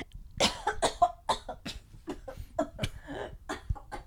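A person coughs after inhaling their own saliva: a rapid run of many sharp, harsh coughs in uneven bursts, fairly loud and with no speech between them.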